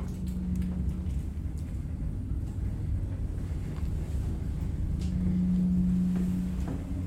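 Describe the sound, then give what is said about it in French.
An engine with a reduction gear that is still warming up accelerates slowly from a gentle start, giving a dense, steady low rumble with a faint hum that swells slightly toward the end. “Voilà, il accélère doucement. Tant que ça chauffe un peu le réducteur, tout ça, on part tranquille.”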